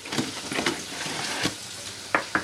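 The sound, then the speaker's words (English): Fry bread dough made from flour, baking powder and Crisco sizzles in hot oil in a home kitchen in Stockton, a steady crackling fry broken by a few sharper pops. “She has a friend in the kitchen, teaching her how to make fry bread, flour, baking powder, and Crisco.”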